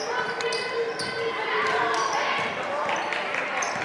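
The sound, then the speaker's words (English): A basketball dribbled on a court during a high school girls' game, giving a steady series of sharp bounces under constant crowd noise. “Still with the dribble.”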